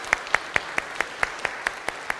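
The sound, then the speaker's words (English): Applause for a child presenting a gift at a football-themed gathering: ten crisp, evenly spaced claps in a quick steady beat over a faint background hiss, with no voices. “Let's have a big round of applause.”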